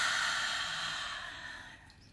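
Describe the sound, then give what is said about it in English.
A deep breath let out in one long, airy sigh during a guided relaxation session: a soft, breathy rush that fades steadily over about two seconds, with no talking. “let's start out by taking a nice deep breath in and release it.”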